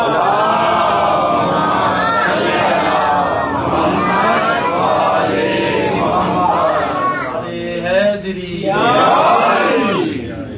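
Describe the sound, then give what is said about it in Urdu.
A crowd shouts a slogan together, many loud overlapping voices forming a continuous roar that swells into a stronger burst near the end. “یہ نعرہ بہادری کا نعرہ ہے”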